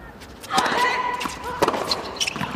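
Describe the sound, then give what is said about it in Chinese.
Table tennis ball served and returned during a match, heard as a few sharp, light ticks of ball on bat and table, spaced unevenly over faint background voices. “埃拉尼发球，博尔特接发，”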